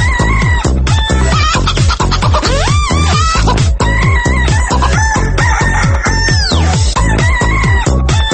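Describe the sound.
Chickens clucking in a dense, loud, continuous chorus of rapid clucks. A couple of longer drawn-out calls rise above the chatter, and no one talks.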